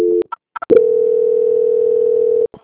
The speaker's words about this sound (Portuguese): a senhora aguarda só um minutinho na linha que eu vou fazer a transferência, tá? Só um minutinho, por favor. Transferência.